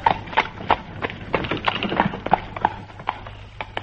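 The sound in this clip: Coconut shells knocked together imitate a hansom cab horse's hooves clip-clopping in a steady, brisk rhythm of many hollow, woody knocks, fairly loud and alone over a low constant hum.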